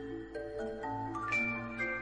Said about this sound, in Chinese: 一阵铃铛声传来，惊醒了袁耀。